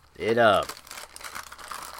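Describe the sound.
A bag of granola rustles with irregular papery crinkles and crackles at moderate level, following a brief voiced sound at the very start.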